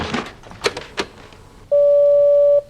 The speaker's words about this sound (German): ich sehe gerade, dass das Lämpchen vom Anrufbeantworter leuchtet. Fahr doch mal ab